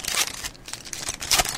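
Packs of trading cards being ripped open. Their wrappers give a few short, crinkly bursts of tearing and crackling, with brief quieter gaps between them.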